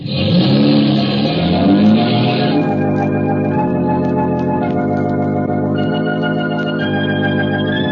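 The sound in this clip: A car engine revving while driving, a loud, steady mid-pitched hum whose tone shifts partway through and then holds.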